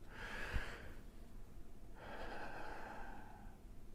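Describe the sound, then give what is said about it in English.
A deep breath is drawn in and then let out: a breathy inhale, a short pause, then a longer, steady exhale, soft and alone without talk. “Just take a deep breath in and a deep breath out.”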